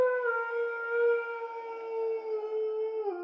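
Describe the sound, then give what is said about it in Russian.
A long, drawn-out howl in an underground corridor: one sustained, steady-pitched wail that holds evenly for the whole stretch and dips slightly at the very end. “когда тишину подземного коридора разорвал протяжный вой.”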